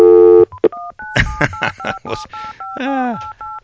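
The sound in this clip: Telephone dialing on a studio phone: many brief two-pitch keypad tones in a quick, uneven series, with short voice sounds at the start and between the tones.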